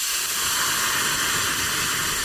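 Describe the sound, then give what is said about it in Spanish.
Hot broth poured into a pan of rice gives a loud, steady sizzling hiss, dense and unbroken throughout, with no voices. “Cuando echéis el caldo a la sartén o a la olla, tiene que sonar así.”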